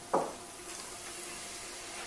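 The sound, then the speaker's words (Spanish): Onion goes into a hot pan of oil and garlic and starts to fry. A short, sharp burst of sizzle comes first, then settles into a soft, steady hiss that stays faint. “Le añadimos unos ajitos. Vamos a darle un poquito más de candela a esto. ¿Cómo huele esto ya? Esto son 2 minutos, de momento. Vamos a echar la cebolla.”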